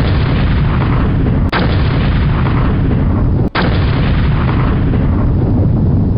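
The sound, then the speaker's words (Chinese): Cannons of a British fleet bombarding a Turkish fortress during the First World War: a loud, unbroken roar of booming fire, interrupted by two brief gaps. “而且这些英国人没有来软的，直接用大炮炮击了土耳其要塞。”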